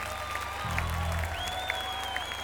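Audience applause for a performer just introduced on stage, a steady, dense wash of clapping that holds at an even level throughout.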